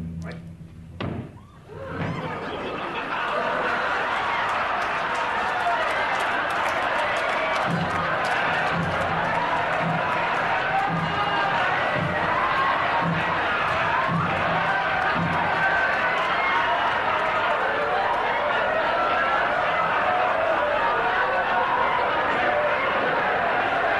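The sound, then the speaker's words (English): A studio audience erupting during a television show, a loud, sustained roar of laughter and cheering that swells after a brief opening thump and holds steady to the end. “You hear the audience just going crazy.”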